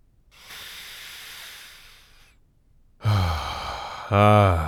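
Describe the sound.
A deep breath drawn in outdoors in the woods: a long, airy hiss of about two seconds, followed after a short pause by a person speaking.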